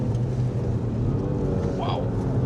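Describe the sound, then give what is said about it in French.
Three-cylinder car engine with a manual gearbox, revving under load: a steady, throaty, resonant drone with a low growling buzz. It holds loud and even throughout, with no clear rise or fall in pitch. “Par contre, j'adore le son du 3 cylindres. Ouais, il résonne bien.”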